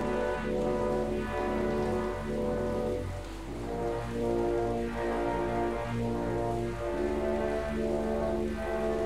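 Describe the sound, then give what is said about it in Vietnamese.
Rain falls in a steady, even wash of patter that runs faintly and continuously throughout, without distinct drops standing out. “Hôm nay trời mưa đó. Trời mưa nên là nó hơi lát.”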